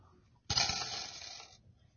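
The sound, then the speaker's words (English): Coins jingle inside a small purse in one bright, metallic rattle of about a second, heard alone. “I have a small little purse here. We got some coins in here.”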